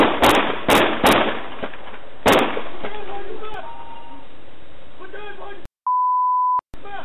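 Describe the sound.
Gunshots fired by a police officer from his gun: a rapid burst of sharp, loud bangs in the first seconds, mixed with talk, followed later by a steady electronic bleep.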